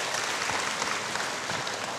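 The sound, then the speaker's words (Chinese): Audience applause at a presentation of a book series on Humanistic Buddhism. A short, fairly quiet and even wash of many hands clapping together continues without a break. “我们再次给他热烈的掌声”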